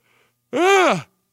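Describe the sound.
A single drawn-out yawn is voiced alone after a brief faint breath. It lasts about half a second, rising and then falling in pitch before cutting off.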